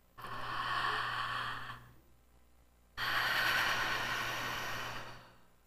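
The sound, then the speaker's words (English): Deep breathing in and out through the mouth: two long, steady breaths of airy, rushing noise, each lasting about two seconds and separated by a short quiet gap. “You want to feel that you're breathing very deeply. 3 seconds to inhale, 3 to exhale throughout your whole body. So here we go. In mouth, out mouth.”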